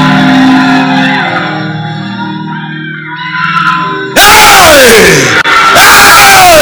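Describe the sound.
An audience shouts and whoops in loud praise during worship, the voices bursting out suddenly and staying loud and raucous after a quieter, sustained tonal stretch.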